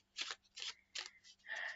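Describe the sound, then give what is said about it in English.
A deck of cards being shuffled by hand makes soft, papery scraping rustles, about four short bursts with brief gaps between them, the last one a little longer. The sound is faint, and no one speaks. “So I'm now shuffling my deck of cards, which again, there's a link to buy them from our beautiful”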